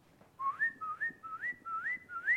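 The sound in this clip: A person whistles five short notes, each sliding upward in pitch, in a quick, even rhythm. The whistling is fairly quiet and heard alone.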